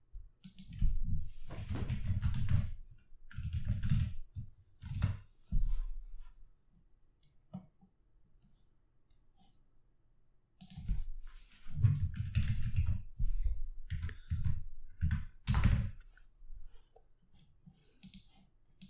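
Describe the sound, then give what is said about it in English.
Clicking keystrokes on a computer keyboard while something is typed into a video site's search. Two stretches of quick, uneven taps are separated by a quiet pause of a few seconds. “Just give me 1 second of dead air, guys, and reaching around you and typing into YouTube.”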